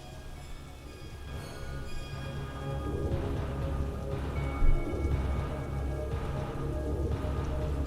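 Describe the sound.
Heavy night rain pours steadily during a thunderstorm, a dense hiss that carries on throughout, with low thunder rumbling beneath it and one brief louder swell near the middle.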